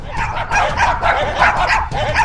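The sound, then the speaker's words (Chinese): Dog barking in a rapid, continuous run of loud, high-pitched yapping barks with whimpering, whiny tones mixed in. “什么声音？现在又发生什么事了？ 汪汪汪”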